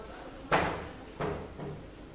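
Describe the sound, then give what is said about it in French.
A door with a broken latch being pushed shut gives three dull thuds, the first the sharpest and the last fainter, each knock dying away quickly with no talk over them. “Si vous pouvez fermer la porte là-bas, c'est sympa.”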